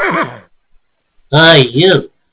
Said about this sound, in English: You can't park your horse there.